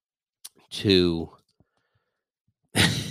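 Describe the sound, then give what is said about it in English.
A vocal yawn: a short breathy intake, then a drawn-out voiced exhale that falls in pitch and fades, followed by silence and a later breathy burst. “Can't stop yawning.”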